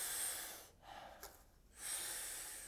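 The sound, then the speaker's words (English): Forceful breaths are drawn in through the mouth during a rhythmic breathing exercise: two strong, airy inhales bracket a softer, quieter exhale. “we're taking about 40 powerful breaths into the body through the mouth. Then we exhale with a nice, soft, relaxing exhale. We do it rhythmically and together, and it sounds like this.”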